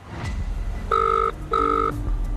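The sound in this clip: Telephone ringback on an outgoing call: two evenly spaced electronic ring bursts, each lasting under half a second, over a faint steady background hiss.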